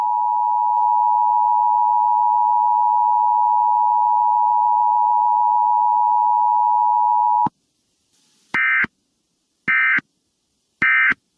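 An emergency alert test tone for cell phones opens with a long, steady, high beep of about seven seconds. After a short silence come three brief buzzy bursts, each separated by a gap.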